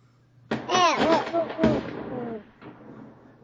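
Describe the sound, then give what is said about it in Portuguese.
A sudden loud explosion bursts in with a heavy crack, then a rough, rumbling roar that fades over about two seconds, with voices mixed into the noise. “Não, porque teve uma explosão aí e a gente tá falando sobre essas coisas e de repente pode ser um atentado”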